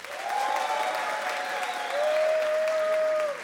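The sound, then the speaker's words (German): Audience applause from a crowd at a live show, clapping to vote for an option: a dense, continuous wash of claps lasting about three seconds that swells louder midway and stays strong until it cuts off. “Wer ist für Bär? Bitte mal klatschen. Wer ist für Hund?”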